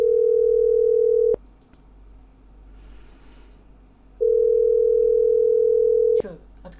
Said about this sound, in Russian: Не-не-не, идут гудки. Номер занят.